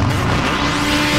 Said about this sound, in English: Hear that? That's the sound of Fast Friday's Motorcycle Speedway Racing.